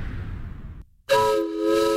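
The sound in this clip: A Sumter Valley Railroad steam train whistle sounds a steady, multi-toned blast that runs to the end, after a rushing hiss cuts off into a brief silence.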